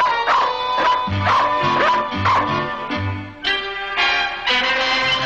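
A cartoon dog, Krypto from a Superman cartoon, barks in a run of several short, bright yips, each with a sharp onset and falling into a whimpering tail. The barks are fairly loud, with no talk over them.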